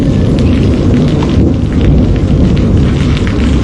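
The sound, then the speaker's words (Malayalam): Rain starting to fall: a dense, loud, steady rushing hiss with a deep rumbling low end, continuous throughout and without voices. “അയ്യോ, ദേ മഴ പെയ്യാൻ തുടങ്ങി.”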